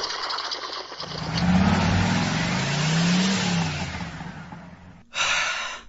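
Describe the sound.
A police vehicle's engine approaches on a roadside where a motorcycle has stopped. A steady motor rumble rises and falls for about five seconds, then breaks off abruptly and is followed by a brief, sharper noise.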